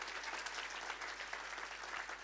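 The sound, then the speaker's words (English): A church audience claps as a clap offering during a morning worship service, producing dense, steady applause that stays faint and even throughout with no clear pauses. “Now you can give the Lord, the King of Kings and the Lord of Lords, a clap offering this morning.”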